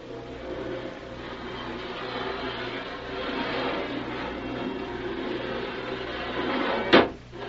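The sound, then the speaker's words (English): A port hatch on a ship being closed gently: a single brief thud near the end over a steady, low background hum. “Help me close this port. Gently. Gently it is.”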